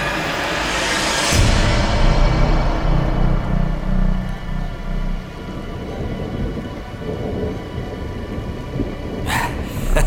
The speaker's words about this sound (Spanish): Vaya, ahora se ha puesto a llover.